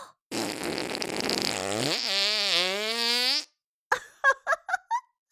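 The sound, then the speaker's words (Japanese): A long, loud buzzing fart, its pitch sliding down and then wavering for about three seconds, followed after a short silence by a few brief, sharp puffs. “思いっきりぶっかけてやったわ。大噴射。おなら、大噴射。”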